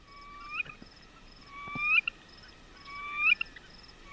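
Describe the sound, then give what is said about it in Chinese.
Plaintive whistled song of a male bird in breeding season: three rising whistled phrases, each sweeping upward to a sharp high note, over faint background hiss. “那雄鸟在这个繁殖期的时候会发出，他们说是哀怨的笛声啊，我觉得有一点孤单的感觉、哦，或者是尖利的颤音哦。”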